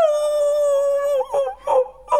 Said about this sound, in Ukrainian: Який добрий песик! Песику, ти, напевно, заблудився? Бідолашний, ти, мабуть, дуже зголоднів.